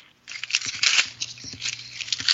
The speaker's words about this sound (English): That's me ripping up friggin' Incredible Hulk 612. I am so mad.